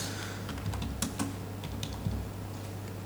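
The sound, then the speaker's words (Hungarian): Soft, irregular keystrokes on a computer keyboard as someone enters a web server address, with faint clicks over a steady low hum. “Beírom a mi webszerverünket.”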